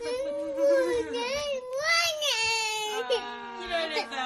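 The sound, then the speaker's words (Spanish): A young Japanese boy wails at the sight of a Pokémon birthday cake. The crying is loud and continuous, with a wavering, sobbing pitch and a few short catches of breath. “Sí, está el niño, pero llorando.”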